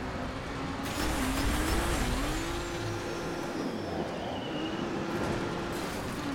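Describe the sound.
Race car engine from the video game Trackmania, driven on a stadium track: a continuous buzzing engine drone whose pitch wavers up and down, holding fairly even loudness throughout with no talk.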